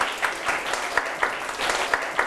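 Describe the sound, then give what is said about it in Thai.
Classroom applause for a student, a group clapping together with sharp accents recurring at a regular beat over a steady wash of claps, moderately loud throughout. “ถูกต้องครับปรบมือเพื่อนหน่อยครับ”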